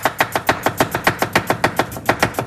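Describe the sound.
A knife chops rapidly with many sharp, evenly spaced strikes in a fast, steady rhythm. The chopping is loud and alone, with no voices.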